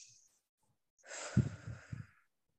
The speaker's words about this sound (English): So let's just take a second, take a big breath in and out.